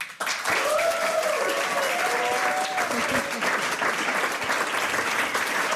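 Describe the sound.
A studio audience applauds to welcome a musician and two fellow performers. The clapping is loud and sustained and stays steady throughout.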